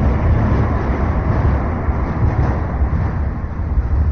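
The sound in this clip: Traffic noise from a large metal road bridge, heard from the quay beneath it: a steady, dense low roar that stays even throughout, with no distinct events and no voices.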